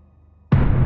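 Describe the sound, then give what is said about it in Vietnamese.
A sudden heavy burst as a floating sphere of blood explodes with a roar. A low murmur comes first, then a sharp, loud onset that carries on as a dense, steady roar to the end. “Quả cầu ầm ầm nổ tung, máu tươi bắn ra bốn phương tám hướng.”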